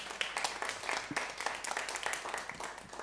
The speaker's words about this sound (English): Let's give them another hand.